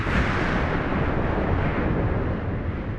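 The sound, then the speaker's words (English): Deep, continuous roaring rumble of a volcanic eruption, Mount Tambora exploding in 1815. It stays loud and steady throughout, a dense turbulent low-end roar with no distinct separate blasts. “And on the evening of the 10th of April, 1815, 1,600 miles away, Mount Tambora exploded.”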